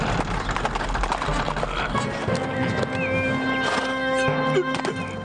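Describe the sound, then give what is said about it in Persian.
Horse hooves gallop in a steady, loud clatter of clip-clop beats as a familiar rider arrives at speed, with a horse's whinny breaking through partway. “سواری آشنا به تاخت می آید.”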